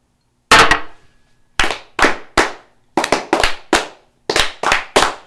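A volley of gunfire fired on command comes as a series of sharp, loud cracking bangs in irregular succession, some nearly overlapping, each with a short ringing decay.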